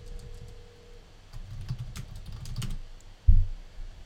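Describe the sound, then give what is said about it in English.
Typing a search on a computer keyboard: quiet, irregular light keystrokes with a louder thump near the end, and no talk. “So I'm going to go to Google and type in Allentown Plumber.”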